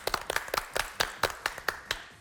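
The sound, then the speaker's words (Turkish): A small quiz show audience claps, with many separate, sharp hand slaps in an uneven rhythm rather than a dense roar. The crisp claps stand alone without any talk. “Tebrik ediyoruz efendim. Sizi alkışlıyoruz.”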